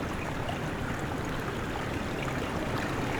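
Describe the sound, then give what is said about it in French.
Small waves of water lapping gently, a soft, continuous wash of trickling and splashing at an even level from start to finish, with no voices. “Ces petits clapotis, doucement.”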